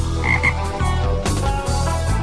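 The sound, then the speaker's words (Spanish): A toad croaks in a steady series of low, rattling croaks that repeat at an even rhythm, with no voices alongside. “O si no, respondan sabiamente como el sapo Ceferino.”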